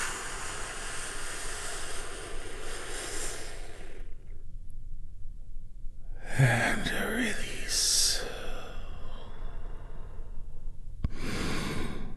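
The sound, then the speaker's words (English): Slow, deep healing breaths during a guided relaxation moment: a few long breathy rushes of air, fairly loud, separated by short quiet pauses. “take a big, deep healing breath.”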